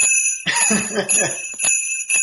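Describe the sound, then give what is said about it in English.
Jingle bells ring brightly and steadily, shaken in a few bursts, with a voice talking over the first part of the jingling. “I just want to give the toilet light five jingles from the Jingle Bells here.”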